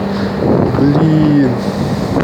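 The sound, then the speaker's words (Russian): Outdoor wind blows against a microphone, making a steady, loud low rumble and buffeting throughout, with faint tonal traces partway through. “блин, ветер на улице.”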